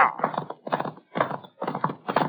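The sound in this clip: Horses setting off at a gallop: rhythmic clattering hoofbeats arrive in repeated bursts, steady and fairly loud throughout, with no voices.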